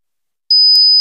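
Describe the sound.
A shrill, steady high-pitched tone mimics ringing in the ears. It starts abruptly after a moment of silence, holds loud and unbroken, and has a faint click partway through.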